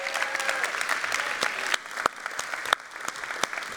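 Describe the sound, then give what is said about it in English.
A church audience applauds as guests walk up on stage. The clapping is dense and continuous, with several sharper individual claps standing out from the wash. “So can you welcome my friends Louie and Portia as they come up on stage right now.”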